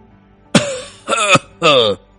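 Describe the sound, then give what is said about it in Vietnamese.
Three harsh, voiced dry coughs from a gravely ill elderly nobleman, performed by a voice. Each cough lasts about a third of a second, with short pauses between them, and the coughs are loud and throaty. “Viên Đào ho khan, giọng đầy tiếc nuối”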